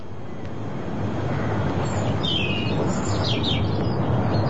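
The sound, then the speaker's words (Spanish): Several high, quick bird chirps in the second half, sounding over a loud, steady low rumble that continues throughout. “Hay pájaros.”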